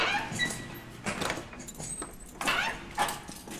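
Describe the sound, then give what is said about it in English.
Keys jangle as a jail gate is unlocked and swung open. Faint metallic rattles and a few clanks come in bursts. “Jailer, open the gate.”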